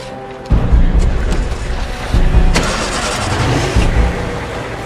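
A vehicle engine starts at a military camp as a convoy of trucks prepares to leave. A loud low rumble kicks in about half a second in, settles into a steady running drone, and surges again around two seconds.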